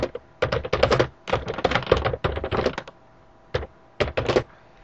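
Rapid typing on a computer keyboard as text is entered into a form, quick runs of clacking keystrokes broken by short pauses, ending in a few brief separate bursts.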